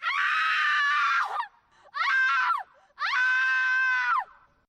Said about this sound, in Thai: แหลมของเสียงแต่เป็นการปรับระดับเสียงสูงต่ำคือยิ่งเสียงหวีดร้องนี้ถูกปรับเปลี่ยนระดับไปเร็วเท่าใดเสียงดังกล่าวก็จะส่งพลังและเรียกร้องความสนใจได้มากเท่านั้นครับ